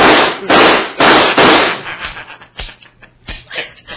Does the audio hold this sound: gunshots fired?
yes